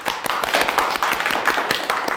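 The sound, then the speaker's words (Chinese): Applause from an audience welcoming a guest lawyer onto a Chinese talk show: many distinct, crisp claps in a quick, fairly steady patter at an even loudness across a short burst. “我们先给我们小鹿老师一点掌声。”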